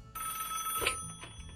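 A telephone rings briefly as a listener calls in. The ring is short and faint, with a bright, trilling quality over a low background hum.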